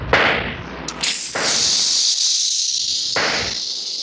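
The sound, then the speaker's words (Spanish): Gunshots fired at a truck: a few sharp, cracking bursts land at irregular intervals over a steady, loud high hiss. “Siguen disparando.”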